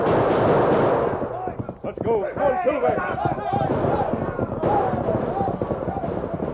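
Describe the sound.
Gunfire effects from a Western radio drama open with a dense burst of shots. Excited dialogue follows under a noisy action backdrop.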